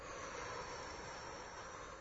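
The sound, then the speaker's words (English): A long, steady exhale after a deep breath during breath-control practice, a soft, even breathy hiss held through the whole clip at low volume. “Take a deep breath. Now blow it out.”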